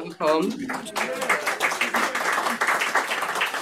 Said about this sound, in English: Thank you for clapping on my behalf.